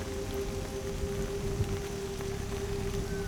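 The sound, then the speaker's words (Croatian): A downpour of rain drums on the thick leaves of a tree canopy, a dense, steady hiss that holds at an even level throughout, with a faint constant hum beneath it. “Visoko iznad sebe čuješ zvuk pljuska koji pada po debelom lišću krošnje.”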